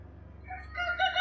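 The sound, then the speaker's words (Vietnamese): A rooster crows once, a bright harmonic call that begins about halfway through over low background hum and grows louder, still sounding at the end. “Hôm sau khi gà vừa gáy”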